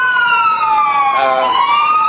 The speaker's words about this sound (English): And a couple of, I don't know, ambulances, a fire engine, and two police cars up here.